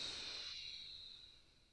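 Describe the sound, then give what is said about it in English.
Airy exhale through the left nostril during alternate nostril breathing: a steady, soft hiss that starts fairly strong and gradually fades over under two seconds. “Pause and switch, exhale out the left.”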